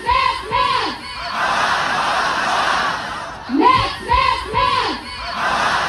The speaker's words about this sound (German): hier hört ihr, was heute Mittag an der Kölner Uni los war.